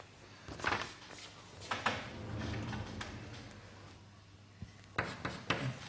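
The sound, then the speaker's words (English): Chalk or marker writing on a board during a physics lecture on renormalization: a few scratchy, tapping strokes in short bursts separated by pauses, over a low steady hum. “I write it down.”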